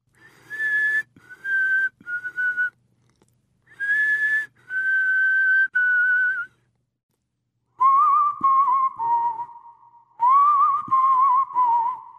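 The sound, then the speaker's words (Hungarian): Someone whistles a melody in an otherwise silent house: bright, clear whistled phrases of sustained and short notes, broken by brief pauses, with the later phrases sitting slightly lower in pitch, and no talking. “Néma volt a ház, csupán csak egy valaki fütyült. Azt a bizonyos dallamot.”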